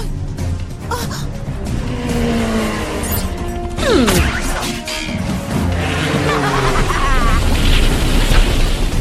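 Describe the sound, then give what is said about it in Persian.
A giant snowball rolling and crashing in a cartoon chase: a loud, dense, continuous rumble with heavy crashing that swells midway, where a brief descending whistle cuts through. “اوخی وای، یه گلوله برفی گنده فرار کن.”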